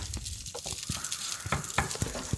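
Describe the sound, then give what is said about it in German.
Tofu with turmeric and kala namak black salt sizzles in a pan, a steady frying hiss scattered with many small crackles and pops, with no talking. “Wir haben jetzt Kurkuma, wir haben Black Salt, Schwefelsalz. Kala Namak. Und Tofu. Genau. Was kommt jetzt? Was sagst du da? Es muss einfach mal ein bisschen brutzeln hier.”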